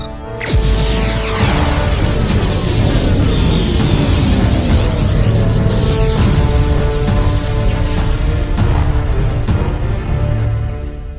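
A planetary weapon fires in space in a science-fiction setting, a loud, sustained rumbling roar with sweeping whooshing tones that rise and fall throughout.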